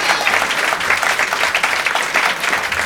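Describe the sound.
Loud, dense audience applause greets a guest from Canada at a live show, a continuous wash of clapping with slight flutter and no pauses.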